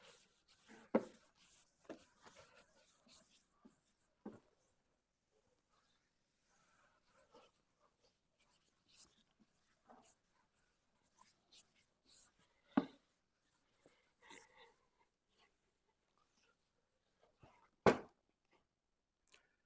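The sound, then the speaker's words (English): A board is erased in a physics lecture, with sparse, faint scraping strokes and light taps spread across the quiet stretch, a few sharper scrapes standing out near the start, middle and end. “I can safely erase this.”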